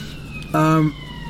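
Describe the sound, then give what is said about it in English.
A brief emergency vehicle siren on a city street in King's Cross: a single short, steady, buzzy tone of under half a second that starts and stops abruptly over a low background hum. “sirens there? Sirens? Yeah, I'm in King's Cross. Can get a bit aggro around here.”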